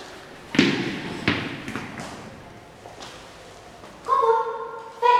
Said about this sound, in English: hurls the ball straight at him.